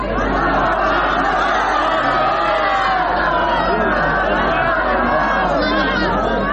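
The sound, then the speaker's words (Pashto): Hundreds of people celebrating in a stadium in Lashkar Gah, Helmand, during a week of reduced violence: a dense, loud and continuous mix of crowd chatter, shouts and excited cheering voices. “د لشکرګه په کرزینو می لوبغالی کې سلګونه کسان د تاوتریخوالي د کمښت د اونۍ جشن ته راوتلي دي. دوی په ډیر هیجان او خوشحالۍ ویناوې، ګډا او اتڼونه کوي”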